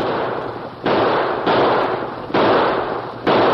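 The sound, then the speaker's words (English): Four loud gunshots fired into the air during a staged stagecoach holdup, each a sharp crack trailing into a long noisy decay, unevenly spaced with no voices. “Tonto raced up to the stage, firing shots into the air.”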